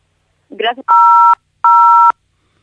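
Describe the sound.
Phone line tones sound as a telephone call cuts off: a brief fragment of voice, then two loud, steady beeps of about half a second each, separated by a short gap.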